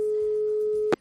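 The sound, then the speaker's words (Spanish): A steady, single-pitch telephone line tone on a call to a dental clinic, held for almost a second before a brief burst of noise cuts it off. “a recuperar una llamada inolvidable del Valle Fiesta, que fue la que hizo Diego Godín a una clínica dental.”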